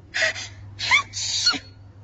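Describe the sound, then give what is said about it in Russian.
A woman sneezes in a few breathy, sharp bursts: a quick intake, then two forceful expulsions, alone with no other sound. “Я вон пока и чихать не перестала, а ты хочешь, чтобы у меня еще и голова закружилась?”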